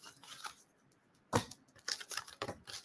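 Tarot cards being brought out and drawn: soft papery rustling at first, then a string of sharper, crisp snaps and flicks as the cards are handled, with no talk over them.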